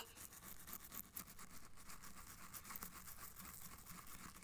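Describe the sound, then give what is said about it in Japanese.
Soft, steady scrubbing of a toothbrush brushing teeth, the bristles working over the back teeth in a continuous bristly hiss with no talk. “そうやって奥までちゃんと見えるようにしないとね。はーい、ほら、奥まで歯ブラシ当たって気持ちいいですよね。”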